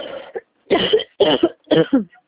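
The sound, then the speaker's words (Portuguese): A few harsh coughs come in short bursts, a faint one first and then three louder, evenly spaced ones, each with a rough throat-clearing edge and no talk around them. “Desculpa que eu tô com tosse.”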